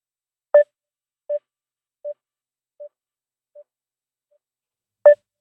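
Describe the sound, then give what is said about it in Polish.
Busy signal after a phone connection dropped: short, evenly spaced mid-pitched beeps that fade steadily, then one loud beep comes back at the end. “Tak, to czasami się dzieje, panie i panowie, że gdzieś to połączenie się zerwie.”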